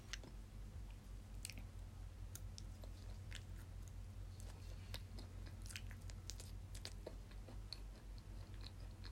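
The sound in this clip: Edamame being chewed: soft, irregular biting and squishing clicks, faint and continuous over a steady low hum.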